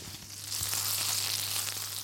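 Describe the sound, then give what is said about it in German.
Boiled Upper Franconian finger-shaped noodles hit hot butter in a pan. After about half a second, a bright, steady sizzle starts and continues evenly, with a faint low hum underneath. “Aus dem Kochtopf werden sie sofort in heißer Butter gebraten. So, jetzt gehen wir sie rein in die heiße Butter.”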